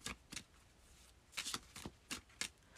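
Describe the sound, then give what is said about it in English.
Tarot cards are pulled and shuffled in several short, soft riffling bursts that come in quick clusters, faint and with no talking. “Let's pull another card for you.”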